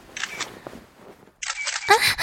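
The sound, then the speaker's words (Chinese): A camera shutter clicks as a photo is taken, giving a few crisp, bright mechanical snaps near the end after quieter faint sounds. “干嘛？谁让你拍照的？快把照片给我删掉。”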